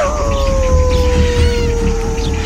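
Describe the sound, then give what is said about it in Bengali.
Dog howling inside a house: one long, drawn-out wail that slowly falls in pitch, loud and unbroken over a low rumbling background. “জঙ্গল থেকে কুকুরের যে ডাকটা শুনেছিলাম সেটা এবার শুনলাম ঘরের ভেতর থেকে।”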